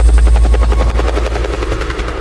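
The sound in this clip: Helicopter rotor noise: a loud, steady, rhythmic thumping of rapid blade pulses over a deep, continuous engine rumble throughout.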